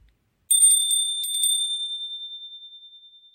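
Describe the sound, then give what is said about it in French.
A chime rings with two quick, bright metallic strikes, then a single high tone lingers and slowly fades. “Le carillon retentit de nouveau. Ding dong.”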